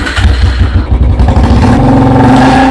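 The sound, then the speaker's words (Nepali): A Royal Enfield Bullet motorcycle rides off with a loud, steady engine rumble: a deep, throbbing low note with mechanical clatter on top that carries through the whole clip. “मैले जस्तो royal Enfield bullet bike चढ्नु पर्यो नि।”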